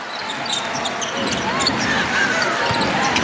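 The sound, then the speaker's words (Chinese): German basketball fans cheer their team at a World Cup game: a dense, continuous crowd roar fills the whole stretch, loud and unbroken. “其实能够去从现场非常清晰地听到球迷们为球队加油的声音，还在喊防守。”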